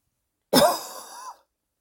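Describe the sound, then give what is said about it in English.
A single short cough, a harsh breathy burst that eases into a rougher, fading tail before stopping abruptly, heard alone against silence. “made me cough. A lot is purging from the throat.”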